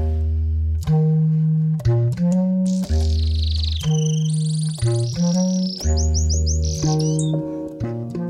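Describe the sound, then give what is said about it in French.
A canary sings in a quiet, tidy workshop, with high chirps, whistled slides and rapid trills over a pattern of loud, repeating low tones that stop and start. “Le canari saute d'un perchoir à l'autre, se met à chanter”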